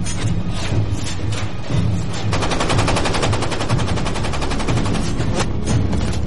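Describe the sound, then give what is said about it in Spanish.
Rapid automatic gunfire crackles in dense, sustained bursts of many shots as wounded crew are evacuated down into a submarine, with the loud rattle continuing almost without pause. “Pero recibe un disparo.”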